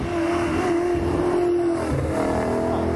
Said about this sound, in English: An oldie. It's a Ford Falcon Sprint. Yeah. Much like what Jim Richards would drive in the Muscle Car Masters yesterday. Absolutely. Spluttering off the line going into Chunda Tanunda.